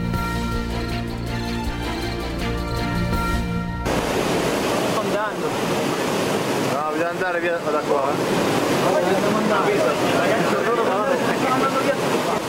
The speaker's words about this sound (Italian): Quello che sentite è il Tanaro, il fiume in Piemonte che è esondato, lo sentite con tutta questa carica di acqua enorme che spaventa solo a sentirlo.